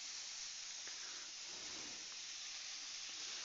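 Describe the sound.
Meat frying in a pan for tacos gives a steady, even hiss and sizzle that carries on without a break for the whole stretch, with no voices over it.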